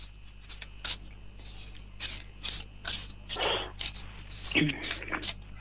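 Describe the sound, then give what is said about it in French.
A deck of cards being shuffled during a card reading: many short, dry, papery riffling and rubbing bursts in an uneven rhythm, with a low steady hum underneath. “Alors, je mélange, que toutes les cartes vous appartiennent ici et maintenant.”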